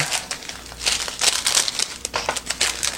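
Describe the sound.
Plastic lid being peeled off a snack food cup for a quick after-school snack: a few bursts of bright, crisp crinkling and crackling packaging, fairly loud and irregular, with no talk.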